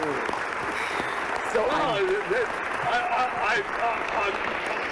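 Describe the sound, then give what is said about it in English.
Audience applause and cheering greet a guest being introduced: dense, steady clapping with excited voices calling out over it, holding at an even loudness throughout. “I've never had an ovation like that.”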